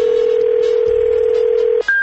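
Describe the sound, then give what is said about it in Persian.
A telephone call is dialed: a steady, unbroken telephone tone holds for nearly two seconds, then cuts out and a single higher-pitched tone begins. “بعضی وقتا زنگ می‌زنیم پیداش نمی‌کنیم، دوباره زنگ زدیم ببین چی شد.”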